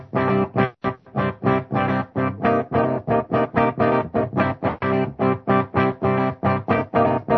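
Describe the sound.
Electric guitar played straight into a power amp with no effects engaged, through a 4x12 cabinet with Vintage 30 speakers. Loud, even chords chug in a steady, driving rhythm, many strokes in a row with short gaps between, with no voices.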